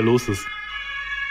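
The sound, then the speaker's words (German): Fire engine sirens as the trucks pass by, holding a steady, high, tonal wail that continues alone to the end after a short burst of speech. “Warte mal ganz kurz, bis die 500 Feuerwehrautos vorbeigefahren sind.”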